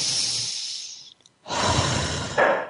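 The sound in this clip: A deep breath: a long, airy inhale, a brief silent pause, then a fuller, louder breathy exhale that swells again near the end, with no talk.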